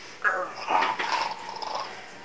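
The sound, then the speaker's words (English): A person voices an animal growl during a game, a short, rough, throaty rumble lasting about two seconds. It is fairly quiet and heard alone. “I will growl at him.”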